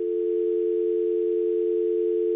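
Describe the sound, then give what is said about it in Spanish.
Telephone dial tone after a dropped call: a single steady, unbroken hum at a constant mid-low pitch and even loudness for the whole stretch, with no voices. “Se cayó la llamada. Bueno, eso puede pasar especialmente cuando llueve.”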